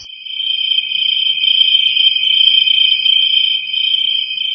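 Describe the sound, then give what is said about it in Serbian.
A cricket chirps in one steady, high, continuous trill that holds at a fairly even loudness for the whole stretch, with no voices or other sounds. “Može čvrčak da čvrči i danju. Zato što on čvrči u bilo koje doba.”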